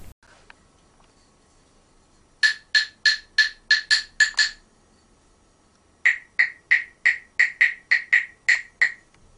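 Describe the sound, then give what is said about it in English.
Clapsticks, or claves, an Australian percussion instrument, give bright, sharp wooden clicks in two runs of rapid, evenly spaced strikes, about eight in the first and a longer run in the second, with a short silence between. “The second instrument is very well known. It is often used in French schools. It's called the clapsticks, en français clave. It's a percussion instrument. It sounds like this.”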